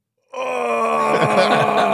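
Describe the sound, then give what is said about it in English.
A voice imitates a long, steady groan that starts abruptly and holds for nearly two seconds, loud and sustained with a rough, droning tone and no talk over it. “Just a groan is the first thing.”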